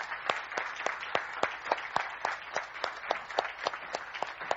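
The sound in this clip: Sparse applause welcomes a speaker at an event, with crisp individual claps from a small group. The claps keep a fairly even rhythm and stay quiet throughout.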